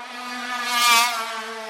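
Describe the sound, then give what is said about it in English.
A racing kart with a failing engine drives past, its abnormally noisy, buzzing drone holding a steady pitch as it swells to a peak and then eases off. “That is not the normal noise of a kart at this level. It's far too noisy. Something has definitely failed on his kart.”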